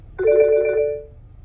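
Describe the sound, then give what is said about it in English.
Mobile phone ringing with an incoming call: a single short tonal ring, clear and steady, that fades out after about a second over faint background hum. “Phone call. I have to take it later.”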